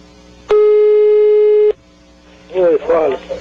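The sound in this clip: A steady electronic telephone line tone sounds while a call is being placed: a single unbroken buzzy hum of about a second that cuts off abruptly, after which a person starts talking.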